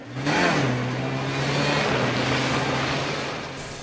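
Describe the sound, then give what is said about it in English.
A snowmobile engine starts and rides away, a steady mid-pitched motor drone that swells right after the start, wavers briefly, then holds level and eases slightly toward the end. “A snowmobile is fired up and ridden away.”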